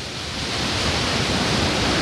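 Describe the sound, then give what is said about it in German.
Waterfall with water masses shooting down over rock walls into a valley, heard from the highest platform: a dense, loud, steady roar of rushing water that swells slightly and stays unbroken throughout. “Vor uns, ich sehe, wie die Wassermassen runter ins Tal schießen oder über die Felsenwände da runterfallen.”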